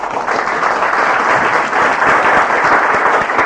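Loud, continuous applause in a legislative chamber welcoming guests seated in the gallery, many hands clapping densely and evenly with no break for the whole stretch.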